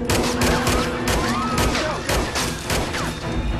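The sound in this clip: Gunfire rings out during a bank holdup in a video game, a dense, loud fusillade of many rapid shots with sharp cracks overlapping throughout.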